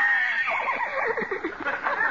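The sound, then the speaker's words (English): A horse whinnies in one long, loud, quavering high-pitched call lasting about two seconds, its pitch wavering up and down throughout. “Come on, horsey, come here. Open your mouth. Open up.”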